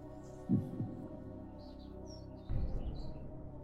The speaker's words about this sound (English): Nice to hear those birds tweeting in the background.